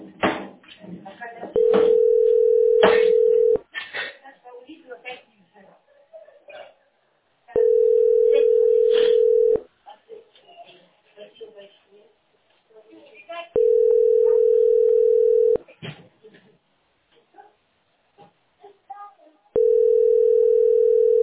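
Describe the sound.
Telephone line tones while placing a call: four long, steady beeps, evenly spaced about six seconds apart. People talk quietly in the gaps between them.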